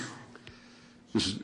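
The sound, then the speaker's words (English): A single sneeze bursts out near the end, sudden and sharp, after a second of quiet with only faint low background noise. “Bless you.”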